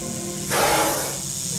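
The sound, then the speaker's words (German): A snake's hiss in a radio drama as the creature rears up threateningly: one breathy, sustained hiss of about a second swells and fades over a faint background. “Aber die Schlange hatte ihn längst erblickt. Drohend reckte sie sich vor ihm in die Höhe.”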